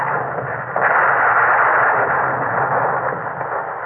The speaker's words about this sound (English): All four of our battleships are firing at the Suvorov now.